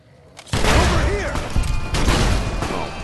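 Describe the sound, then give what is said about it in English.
Grenade explosions in the Fallout video game erupt in a sudden loud blast. Heavy rumbling and crashing follow, with further bursts and voices mixed in. “wasted two grenades on him”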